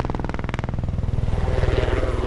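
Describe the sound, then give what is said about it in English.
Military helicopters fly overhead above a village on a practice flight, making a loud, continuous throbbing engine and rotor drone with a rapid pulsing beat that holds steady throughout. “Military helicopters doing a dry run for tomorrow's task”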